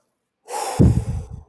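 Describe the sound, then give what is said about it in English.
A very deep breath, drawn in with a loud rush of air and then released with a heavier, rough huff. It stands alone with no talk. “That's about the biggest deep breath I've ever taken in my life.”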